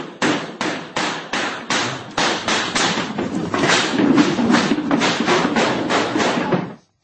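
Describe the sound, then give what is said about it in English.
A volley of gunshots in audio recorded inside a cafe: a long, rapid series of sharp, hard bangs at a fairly regular rhythm, with the later shots running together into a dense, muffled, band-limited burst. “In audio recorded inside the cafe, a speaker is cut off mid-sentence by a volley of shots.”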